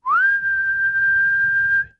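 A single human whistle: a clear tone swoops upward at the start, then holds one steady high pitch for nearly two seconds before it cuts off.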